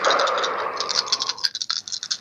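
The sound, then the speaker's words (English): Four dice are rolled for a game, first a steady shaking rattle, then a quick scatter of sharp, light clicks and clatters as they tumble and settle, with no talk. “Roll the four dice, and then strength fighting plus two.”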